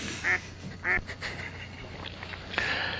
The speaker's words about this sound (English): That duck's got a shadow.